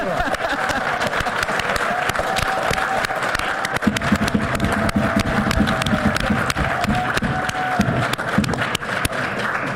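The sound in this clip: An audience applauds at a city council meeting after a unanimous vote, with dense, steady clapping sustained at an even level through the whole stretch.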